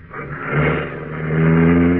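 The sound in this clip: A car engine revs and pulls away near a barn, a steady low rumble that swells, eases briefly, then builds again over the two seconds with no voices.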